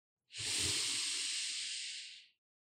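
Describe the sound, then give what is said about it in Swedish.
A long, deep breath out during a guided breathing exercise: one steady, airy hiss lasting about two seconds, starting abruptly and tapering off at the end. “Och ut. Sista andetaget. Djupt, djupt, djupt.”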